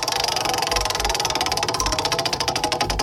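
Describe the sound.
Rapid, evenly spaced ticking clatter from a country music trivia prize wheel being spun. The clicker rattles densely and continuously throughout at a fast, steady rate.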